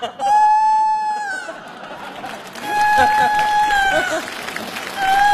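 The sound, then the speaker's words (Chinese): A rooster crows in repeated long, sustained, tonal calls, a few crows over a busy, noisy background. “这咋还打鸣呢？”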